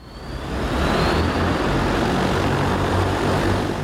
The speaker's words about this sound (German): Es ist der ganze Stolz des chinesischen Unternehmens Ehang, das eigene Flugtaxi.